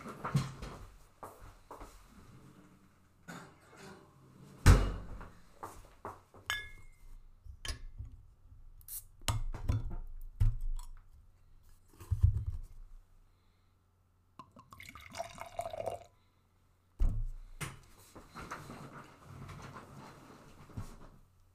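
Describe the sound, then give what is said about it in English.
A bottle of dark svart beer is opened and poured, with glassy clinks, dripping and gurgling liquid in irregular bursts separated by brief pauses. “I wanted to freshen up a little bit before I open the next beer. So I will open this svart beer.”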